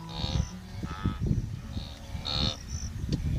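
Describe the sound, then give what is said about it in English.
Restless livestock low and call continuously, a herd exhausted and thirsty after travelling long distances to green pastures. The overlapping calls are low-pitched and of moderate volume, with no pauses. “The herd is restless. After traveling such long distances to reach the green pastures, the animals are exhausted and thirsty.”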